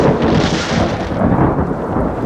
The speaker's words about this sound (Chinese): 哎，是不是下雨呀，外边？ 没有啊，干打雷不下雨，都好几次这样了。